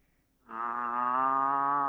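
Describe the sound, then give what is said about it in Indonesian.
A cow that has got loose from its pen lets out a single long, low moo, rising abruptly from near silence and holding steady and loud for about a second and a half, with no voices. “Sapi ini ucul. Sapinya ucul. Kok sakno? Yo gak gelem mlebu nang kandang.”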